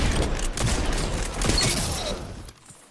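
Gunfire in the Destiny 2 Crucible multiplayer video game: a few sharp, loud shots with mechanical clatter between them, then a quick drop to near silence at the end.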